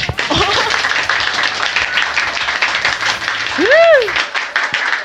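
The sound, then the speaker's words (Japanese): Audience applause at a live recording session: dense, steady clapping at full volume throughout, with voices mixed in and a brief rising-then-falling whistle-like tone near the middle. “拍手”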